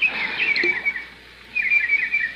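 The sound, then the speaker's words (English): Birds chirp and twitter around a fish pond in two lively bursts of high, quick calls separated by a brief quieter gap. “What's that? Oh, birds playing in the fish pond. Look at them, happy birds.”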